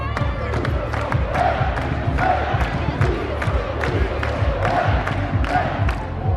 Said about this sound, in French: La coupe vient d'apparaître sur scène sous les ovations du public.